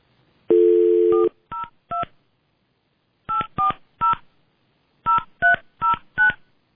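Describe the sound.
Touch-tone keypad beeps as a phone number is dialed: a brief dial tone, then about ten quick, loud beeps in three clusters separated by silent pauses.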